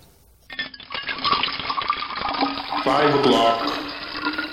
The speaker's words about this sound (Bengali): বাথটাবটা পরিষ্কার গরম জলে ভরে উঠল।